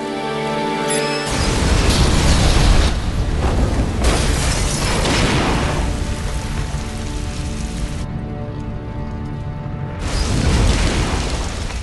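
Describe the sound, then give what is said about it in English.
A massive explosion destroys a complex: a sudden, loud, broad roar bursts in after a short tonal opening, then a long, dense rumbling that surges again a few times. “The complex is destroyed, throwing up a vast cloud of thick black smoke.”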